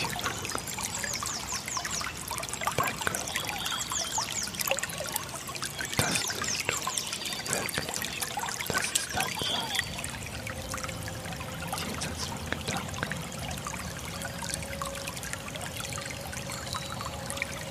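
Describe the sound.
Water trickles and splashes gently in a continuous, soft babble that stays fairly faint and even throughout, with no voices.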